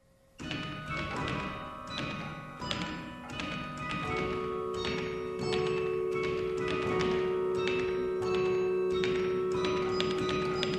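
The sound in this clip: A practice carillon, its keys played with no bells attached, gives a steady series of many struck metallic tones of varying pitch with hollow thumping key noise under each note, heard alone.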